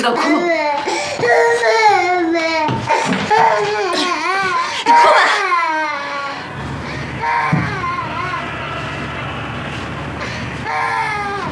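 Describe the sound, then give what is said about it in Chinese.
A child cries loudly in long, wavering wails that slide up and down in pitch, broken by sobs, strongest in the first half and continuing more raggedly afterward. “你他妈就知道哭，你哭吧！”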